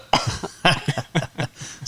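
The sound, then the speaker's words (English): A person coughs into a microphone, a quick run of several sharp, throaty bursts separated by brief gaps, loud and alone with no talk. “Hey, sorry, I had a little something in my throat I had to get rid of, and I coughed on this mic.”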